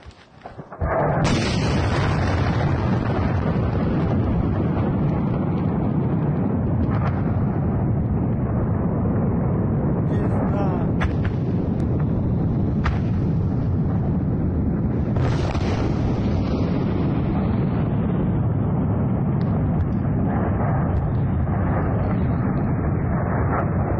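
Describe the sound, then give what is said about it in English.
A Russian military attack on a Ukrainian weapons dump sets off a huge explosion: a sudden blast swells into a long, loud, continuous roar, with a few further bangs bursting through the rumble. “It reminded me of the enormous explosion in Beirut a few years ago, but this was no industrial accident. This was a Russian military attack on a Ukrainian NATO weapons dump. Take a look.”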